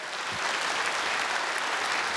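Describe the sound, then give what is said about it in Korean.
Warm, continuous concert applause from an audience at a performance by the Daejeon Municipal Yeonjeong Gugak Orchestra. The dense, even clapping fills the whole stretch without breaks. “대전시립 연정국악단과 함께 청춘을 제대로 즐기셨다면 다시 한번 뜨거운 박수로 화답해 주실까요?”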